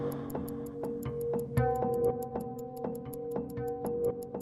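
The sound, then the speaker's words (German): A wristwatch ticks on a bedside table. Crisp, even ticks repeat many times at a quick, regular pace over a sustained tonal hum, with no voices. “Neben mir auf dem Nachttisch tickte meine Armbanduhr.”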